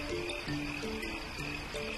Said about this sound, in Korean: 바로 개구리죠.